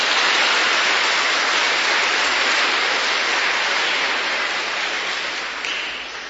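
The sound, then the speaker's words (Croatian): Audience applause after a traditional Michaelmas concert held for the feast of Saint Michael: dense, steady clapping without pause that fades slightly toward the end. “Pljesak još jednom za ove naše prijatelje.”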